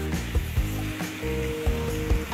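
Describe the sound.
Food sizzles and fries in a pan on the stove, a steady hiss broken by a few sharp knocks and scrapes as it is stirred.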